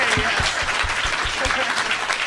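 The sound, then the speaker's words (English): Audience applause, a steady, dense wash of many hands clapping at full strength for the whole stretch with no pause. “Let's have a round of applause for all of my guests, you guys.”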